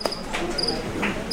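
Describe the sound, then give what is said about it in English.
Crickets chirp through speakers set around a patio, a few short, high-pitched trills repeating over a soft, steady background hiss. “Yep, that's the sound of crickets. It played on speakers throughout the patio.”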